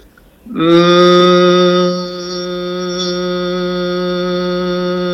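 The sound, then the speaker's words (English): A voice humming a sustained "mm" as a resonance exercise, a single steady hum rich in overtones that starts strong and settles slightly softer, holding to the end. “So the simple exercise I'm just going to have you do, and you're going to hear resonance in my voice when I do it, is M for Mary, and it sounds like this.”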